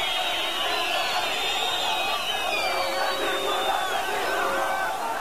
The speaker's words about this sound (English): here is the sound of some protesters in Damascus as there's been reaction around the world of to what's going on in Gaza.